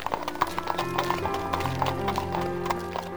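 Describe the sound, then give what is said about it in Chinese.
Hooves clip-clop steadily as a horse-drawn carriage moves off toward a factory, a run of many sharp, rhythmic knocks over soft music. “马车往工厂前进了。”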